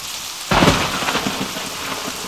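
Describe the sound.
A thunderstorm: a sudden heavy crack of thunder breaks in after a moment of steady rain, then rolls off into a dense, continuous hiss of rain falling on surfaces.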